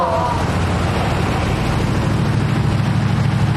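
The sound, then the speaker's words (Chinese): A Mercedes-Benz G-Class SUV engine approaches: a broad, steady low rumble with rushing road noise that holds constant throughout and swells only slightly near the end. “哎，你们快看那辆大 G， 好像整个金海就这一辆哎。 谁的车？ 长征集团的。 还往我们这边走。”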